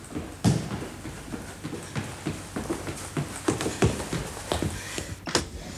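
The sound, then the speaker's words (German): Horse-drawn carriage rattling up and stopping, with a steady run of irregular hoof clops and sharp wooden rattles at moderate level and no voices. “Doch horch, ein Wagen rasselt heran. Hält.”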